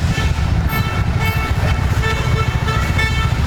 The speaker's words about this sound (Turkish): Bazı sürücüler ise hayvanları yoldan uzaklaştırmak için kornaya basıp yavaşladı.